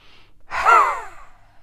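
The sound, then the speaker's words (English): A single strong breath during a guided breathing workshop swells quickly, carries a faint voiced tone, and then fades away, preceded by a soft hiss. “now when you're breathing in we're going to breathe in like this all like this 5, 6, 7, 8, 9, 10, and you breathe out for 5 seconds.”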